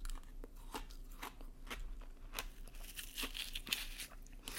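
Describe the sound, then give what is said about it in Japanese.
Crunching and chewing of a lemon shaved-ice dessert: many quiet, crisp crackles at an uneven rhythm over a faint steady hum. “ちなみに今日食べていたアイスはサクレですサクレレモン”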